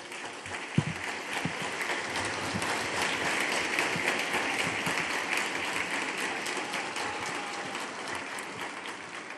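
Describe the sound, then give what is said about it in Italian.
Crowd applause for the Pope at Castel Gandolfo during the Angelus, a dense, steady wash of clapping that holds at an even level for the whole stretch, with one brief sharp knock near the start and no voices on top. “E interrotto più volte dagli applausi della folla, il Papa da Castel Gandolfo si rivolge ai governanti del mondo.”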